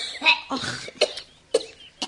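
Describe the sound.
Coughing from an elderly woman suffering from a persistent cough: several short, harsh bursts spaced apart, fairly loud, with no talk.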